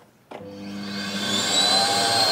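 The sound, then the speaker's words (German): A repaired vacuum cleaner, fitted with a new plug, switches on abruptly. Its motor hum steadily builds and rises into a sustained, loud whine, heard alone. “Also, es brummt, nicht nur das kaputte Radio vom Yannick brummt, sondern auch der Staubsauger, der soll ja immerhin so tun. Also, das funktioniert.”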